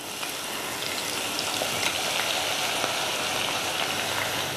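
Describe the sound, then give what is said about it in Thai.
Food deep-frying in a pot of hot oil gives a steady bubbling sizzle, a constant crackling hiss flecked with scattered sharp pops. “ดูว่าน้ำมันร้อนหรือเปล่าเนี่ยคุณผู้ชมร้อนแล้วค่ะถ้าใส่ลงไปแล้วมันขึ้นมาเลยหมายถึงว่ามันไม่นอนที่ก้นนะคะก็เอาลงไปเจียวได้เลย”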